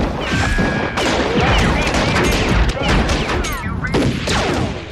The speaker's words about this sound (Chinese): 特警大队室内射击场枪声大作，一颗颗子弹飞出枪口，活动靶上不断地被击出一个个弹孔。